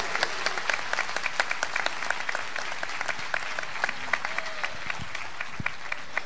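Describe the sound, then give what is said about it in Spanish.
A church audience breaks into sustained applause, dense clapping that stays steady and fairly loud throughout, with scattered crowd noise underneath. “Dale un aplauso a ese Dios vivo al que tú le sirves.”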